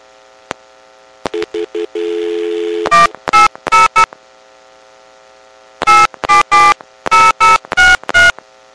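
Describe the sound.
A phone line clicks and gives a few short beeps and a brief dial tone. Loud touch tones then dial a toll-free number in two quick runs separated by a pause of about two seconds.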